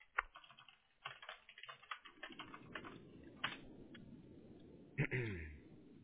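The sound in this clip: Typing on a computer keyboard while copying and pasting: a faint, irregular clatter of quick key clicks, bunched at first and then thinning out.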